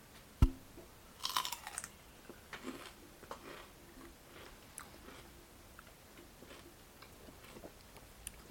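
Someone chews a piece of celery to soothe a mouth burning from spicy hot sauce, with an early sharp click and a cluster of crisp crunches, then fainter, scattered chewing noises at a low level.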